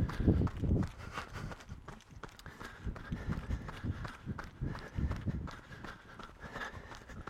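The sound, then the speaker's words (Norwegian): Running footsteps along graves in a graveyard, quiet, rhythmic footfalls landing in a quick, steady pace that carries on for several seconds with slight variation in force. “Ja, så springer jeg bare langs med gravene.”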